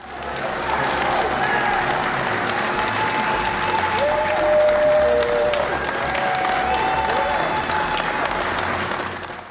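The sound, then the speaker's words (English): Workers cheer and applaud as the first Pfizer COVID-19 vaccine shipments leave Michigan. Dense, steady clapping mixes with shouts and whistle-like cries, holding at an even, loud level throughout. “That's the sound of cheers from workers as the first Pfizer COVID-19 vaccine shipments left Michigan this week.”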